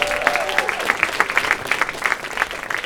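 An audience claps and applauds to welcome the hosts onto the stage at a live show. The applause is dense and steady throughout, with crowd noise mixed in.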